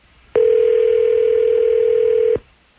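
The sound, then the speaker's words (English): A telephone dial tone sounds while a call is being placed: one steady, pure mid-pitched hum starts abruptly, holds evenly for about two seconds, then cuts off cleanly, with no talking over it. “All right, I'm going to go ahead and dial him up.”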